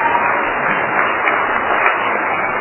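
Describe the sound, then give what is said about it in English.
Audience applause at a group meeting welcoming new members, a dense, steady wash of many hands clapping together, with no separate claps standing out. “Let's give them a hand.”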